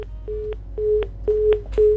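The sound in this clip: Telephone busy tone after a call disconnects, a low steady beep repeating in four even pulses over a constant background hum.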